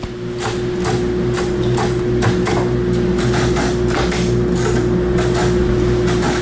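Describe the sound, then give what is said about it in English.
Braille embossers click rhythmically as their pins and weights indent sheets of paper during a children's Braille competition, with many rapid, evenly spaced clicks over a constant low mechanical hum. “That's the sound of Braille embossers, which are machines that use pins and weights to indent a sheet of paper with Braille.”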